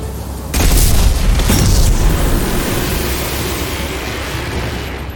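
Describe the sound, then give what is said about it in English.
Explosions and gunfire in a video game battle against robotic mechs: a loud booming burst about half a second in, followed by a dense, sustained roar of noise that stays loud to the end. “Shoot at some Loki mechs.”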